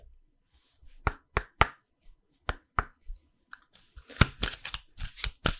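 A deck of cards is shuffled: several sharp, crisp slaps and snaps, then a denser, rapid fluttering riffle toward the end, all fairly quiet against near silence.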